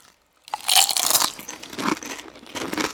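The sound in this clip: Crisp crunching of smoky-flavoured potato chips being bitten and chewed, starting after a brief silence, then dense, crackly bursts of loud crunching that ease off and return, with no talking.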